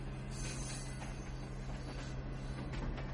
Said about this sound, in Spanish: Pasa un tren.